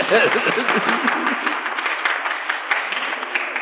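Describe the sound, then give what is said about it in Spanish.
An audience applauds with a dense, steady patter of many clapping hands. A voice is heard at the start, and the applause then continues alone. “¡Aplaudan si quieren, hombre, si no hay inconveniente!”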